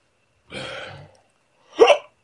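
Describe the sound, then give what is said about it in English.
Hiccups from a drunk person: two separate sounds, a breathy, longer gasp and then a sharper, louder hiccup, with silence around them. “You okay? I got the hiccups.”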